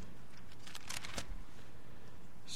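Mechanical clicks from a cassette tape recorder shutting off at the end of its tape: a brief cluster of sharp clacks, then a lone click near the end, with no talk.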